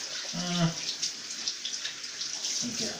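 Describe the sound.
Water splashing from watering, a steady hiss of pouring and spattering water that runs throughout, with a brief voice-like tone near the start.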